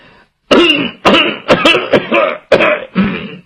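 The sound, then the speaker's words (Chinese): A storyteller's voice imitates an old man coughing and clearing his throat, a string of loud, rough hacking bursts in quick succession after a brief silence. “就听对面屋他爹在那咳嗽一声”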